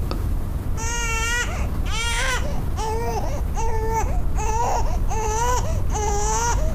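Infant crying in a steady run of short, rhythmic wails, each a high, strained cry with a wavering pitch, repeating at a regular pace over a constant low background hiss.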